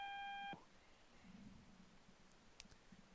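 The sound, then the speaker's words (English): A single electronic beep on a phone line during a call: a steady tone that lasts about half a second, then cuts off to faint line hiss. “Oops, I got a beep.”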